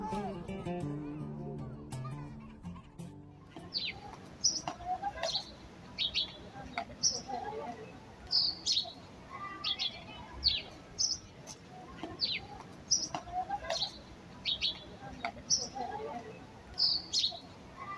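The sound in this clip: Birds singing in the trees of a small garden at a laboratory in Rabuni at sunset: many short, high chirps and calls in an irregular rhythm, with low voices at the start.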